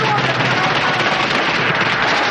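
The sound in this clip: Gunfire in a 1980s war film: a loud, continuous barrage of rapid shots and bursts blending into a dense, unbroken roar.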